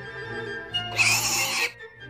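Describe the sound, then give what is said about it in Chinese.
A wild boar hanging by its hind leg from a rope snare gives one shrill squeal of pain, a loud, harsh cry lasting under a second. “原来是一头野猪，后腿被绳索套住，所以吊在半空中，不断地挣扎哀嚎。”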